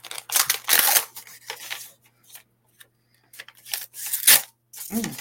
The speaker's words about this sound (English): I want to open my card first. This, I wanted to give you this present during the show. Okay, well, I'm going to open my card first.